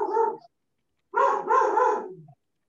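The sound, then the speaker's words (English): A dog barking excitedly: one short, mid-pitched bark, a pause, then a longer, drawn-out double bark with a yelping edge, heard alone without talk. “And my dog's going nuts.”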